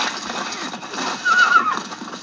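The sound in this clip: A horse in a film scene gives one loud, shrill, wavering neigh that peaks mid-clip over a dense, noisy background.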